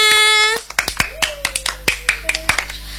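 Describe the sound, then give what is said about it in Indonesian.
Hand clapping before a children's sing-along, a steady rhythmic series of sharp, bright claps that begins after a short sustained voice, with a soft held tone running beneath some of the claps. “tepuk tangan semuanya.”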